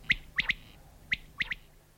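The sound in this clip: A bird sings in clover fields of the Luga district, giving six short, high chirps in a quick pattern: a single note, a pair, another single note, then a final pair, over faint quiet background.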